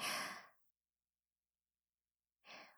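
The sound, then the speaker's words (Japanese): A deep breath in and out, heard as two faint, airy rushes of breath with a long silent gap between them. “大きく息を吸って、吐いて”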